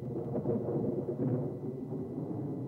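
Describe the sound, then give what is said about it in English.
Faint, low thunder rolls from lightning in a storm, a soft rumbling that swells twice and then settles back, with no voices. “Lightning flashes as the guards leave.”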